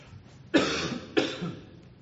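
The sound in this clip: Two sharp, harsh coughs after a drink went down the wrong way, spaced a little over half a second apart, each with a brief raspy tail, alone with no talk.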